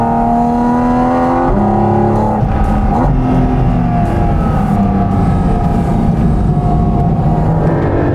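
A car accelerating hard on a race track gives a loud, continuous engine roar. Its tone climbs and then drops back a few times, as if shifting gears, with no voices.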